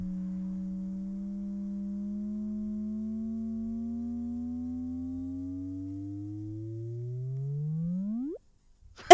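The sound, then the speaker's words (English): Sonification of two neutron stars colliding: a smooth low electronic tone with harmonics creeping slowly upward in pitch, then sweeping sharply up into a quick chirp before cutting off, followed by a brief click. “This is the sound of two neutron stars colliding.”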